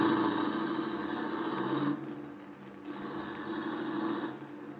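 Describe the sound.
A car engine drones as the car is driven, a steady low hum that dips briefly midway and then returns to its earlier level.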